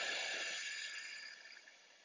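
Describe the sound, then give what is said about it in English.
A long, soft exhale during a guided meditation ritual, a breathy hiss that fades steadily over about two seconds, quiet and alone. “Take a deep breath in. Good. And exhale out.”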